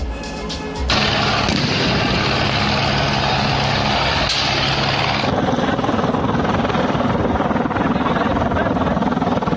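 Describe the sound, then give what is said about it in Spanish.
US helicopters flying over the Mexico–United States border fence area: a loud, steady rotor drone with a throbbing, whirring texture that swells in after a brief quieter start and holds to the end. “mientras que helicópteros estadounidenses sobrevolaban el área.”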